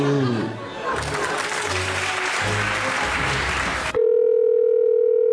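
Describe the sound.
The steady telephone tone of a call reaching voicemail, a flat sustained beep that cuts in sharply after a stretch of noisy crowd sound and holds loud to the end.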